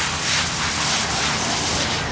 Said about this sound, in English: spray all these clothes out and get them all cleaned out before we put it in the wash machine.